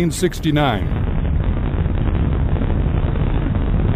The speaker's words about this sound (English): test of an atomic bomb. The mushroom-shaped cloud rose to a height of 41,000 feet above the New Mexico desert at Alamogordo Air Base.